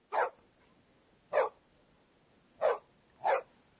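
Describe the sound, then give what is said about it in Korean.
Dog barking: four short, sharp barks, evenly spaced and clearly separated, each loud against an otherwise quiet background. “아, 개가 짖는 소리군요.”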